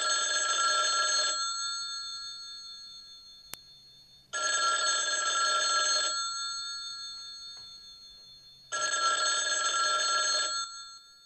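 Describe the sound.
A telephone in a kitchen rings three times, each ring a long, loud electronic trill of about two seconds, separated by quiet pauses.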